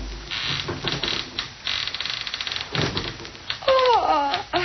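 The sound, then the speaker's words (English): A window creaks open at night: a rough rattling scrape gives way near the end to a louder, drawn-out, wavering creak. “so that they didn't notice the window opening in back of them”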